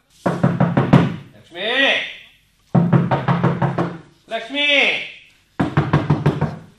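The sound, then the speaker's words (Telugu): Someone bangs hard on a door in three rapid bursts of knocks, with a voice calling out in the gaps between them. “బాబ్బా, ఎవరో తలుపు బాదేస్తున్నారు.”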